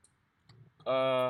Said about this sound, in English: excuse me, I'm like cutting my nails right now.